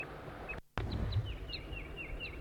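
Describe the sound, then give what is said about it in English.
A wild crossbill calls in a quick, uneven series of short, high chips over a low, steady background noise. The calls are quiet. “There's a wild crossbill here.”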